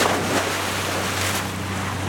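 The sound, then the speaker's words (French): Motorboat speeding over waves, a steady low engine hum under broad rushing water and wind noise, with a brief splash surge midway; no talk. “Je n'ai jamais su dire non à un bateau à moteur.”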